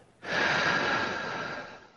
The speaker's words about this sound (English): So let's take a big, deep breath to unite with each other. Breathe in. And let it go.